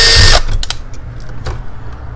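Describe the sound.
A power drill set to high gear unscrews an electrical switch: a loud, short whir stops abruptly, followed by a few scattered light clicks and rattles.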